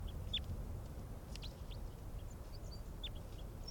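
High, short chirping calls from an excited bird, a few quick thin notes scattered over a steady, loud hiss of background noise.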